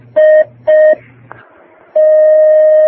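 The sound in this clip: Telephone tones sound as a caller is put through on a religious call-in question program: two short, identical beeps, a pause with a faint click, then one long, steady tone, loud and alone.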